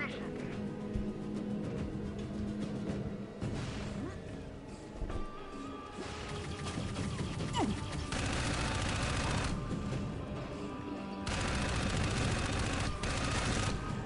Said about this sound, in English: So how does he shoot so accurately when he's just hanging with one arm?